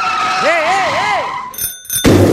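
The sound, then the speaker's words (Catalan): A bicycle bell rings once as a warning, bright and brief, right after a warbling whistle-like tone. “Home, que li ha tocat el timbre per avisar.”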